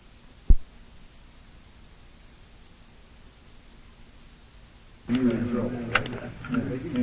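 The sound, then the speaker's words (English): A weapon bolt pushed forward with the selector on automatic gives one sharp, short metallic click. A few quiet seconds follow, then a voice begins speaking. “Bolt forward. It should only click one time.”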